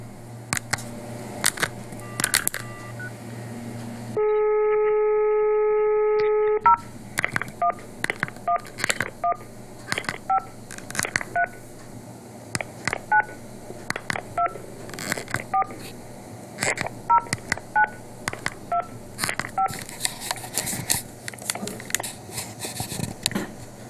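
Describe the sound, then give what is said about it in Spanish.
Telephone dialing tones while calling a doctor's line: a steady multi-tone hum lasting a couple of seconds, followed by a long, rapid series of many short, evenly spaced key-press beeps over a faint background hum. “como venimos haciendo, vamos a llamar a lo de la doctora Carrió.”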